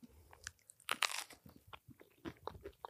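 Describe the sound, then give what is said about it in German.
Crunchy snack being chewed: many irregular crisp crunches and bites mix with wet smacking, quiet and close, with no talk over them. “das wird so, die Leute werden so hassen, wie wir schmatzen”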